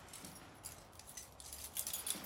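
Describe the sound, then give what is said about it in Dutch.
A bunch of keys is pulled from a coat pocket, giving a faint metallic jingle with light rustling that builds into brighter jangles near the end. “Ze haalt een bos sleutels uit haar jaszak.”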